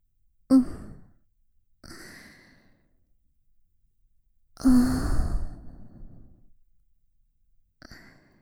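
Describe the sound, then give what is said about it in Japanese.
A woman breathes close to the listener's ear in four soft, airy sighs, each separated by silence. The third exhale is the longest and fullest, and the last is faint. “君の耳元で呼吸をしているだけなんだけどな。こうやって、”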